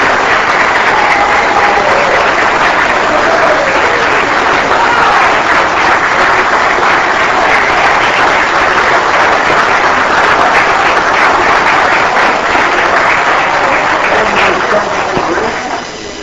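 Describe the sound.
Loud, sustained applause from a legislative chamber welcomes a visiting Star Valley Middle School government class, a dense steady roar of clapping that tapers off at the very end.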